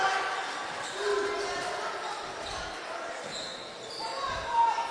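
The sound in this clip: A basketball dribbled on a court during a game, with a few dull bounces under steady play-by-play commentary.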